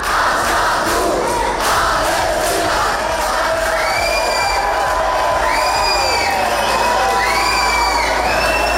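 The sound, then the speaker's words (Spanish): Protesters roar and shout during a riot at Bilbao airport, where police charged a group that had blocked the terminal doors. Many voices form a dense, continuous din, with high wavering calls and whoops rising above it throughout. “Sonido de esos altercados, de esos disturbios ocurridos ayer en el aeropuerto de Bilbao.”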